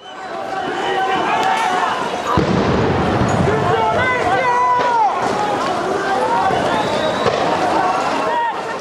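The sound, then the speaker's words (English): Protesters in Colombia run from police during anti-government demonstrations. Many shouting and crying voices stay loud throughout, over a dense, scuffling rush. A rougher burst of noise sets in partway through and carries on to the end. “This is the sound of protesters in Colombia running away from police as demonstrations continue against the government.”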